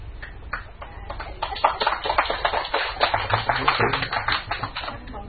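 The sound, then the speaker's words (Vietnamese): An audience at a Buddhist dharma talk breaks into clapping, with many sharp, thin, irregular claps that grow denser after the first second and continue unevenly to the end. “Các vị nào vỗ tay thêm lần nữa chắc tôi đi xuống quá, rất là mắc cỡ.”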